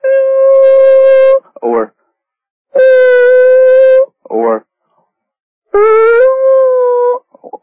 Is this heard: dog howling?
yes